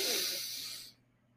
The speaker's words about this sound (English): On the next time I say it, we're going to inhale real big. Ready? Four, three, two, one. Inhale